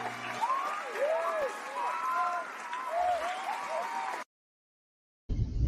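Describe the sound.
Audience applause welcoming a talk show's host: dense, steady clapping and cheering for about four seconds, then an abrupt cut to silence before a voice begins.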